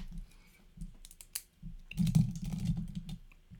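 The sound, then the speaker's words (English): Keys clatter on a computer keyboard as a boxing prediction is written down, a run of light clicks over a low hum that grows denser and louder in the second half. “Let me make sure I write this down for you guys.”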